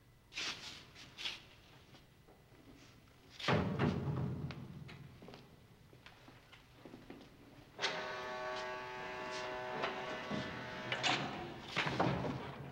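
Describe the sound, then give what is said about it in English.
A barred prison door opening: scattered clicks and thuds, then a heavy metallic clank, followed by a second loud clank with a sustained ringing, humming tone and more thumps toward the end. “A second barred door opens.”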